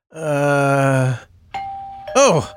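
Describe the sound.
A doorbell rings at a neighbor's visit: a buzzy low tone lasting about a second, then a short pause and a higher, steady chime tone, with a brief voiced groan rising over the end.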